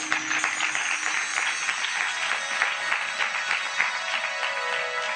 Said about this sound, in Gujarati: તમને આ ઉત્તર ગળે ઉતરે છે તો તાળીઓ તો પાડો.